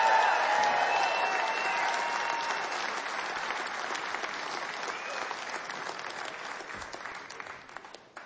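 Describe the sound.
Audience applause after a live music performance: steady, dense clapping that holds evenly, then thins and tapers toward the end.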